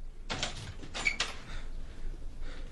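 A door opens as a radio drama sound effect: a few soft scraping, creaking bursts with a brief high squeak, then quieter rustling.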